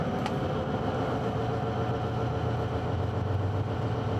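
Car engine drone as the car accelerates and shifts into sixth gear, a low, fairly steady hum at moderate level throughout with no voices.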